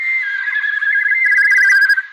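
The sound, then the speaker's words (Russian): A battle whistle sweeps across the sky during a fight with nomads: one sustained, clear, high whistling tone that holds a fairly even pitch for about two seconds and then cuts off. “Кочевники моментально среагировали, и по небу опять пронесся нарастающий боевой свист.”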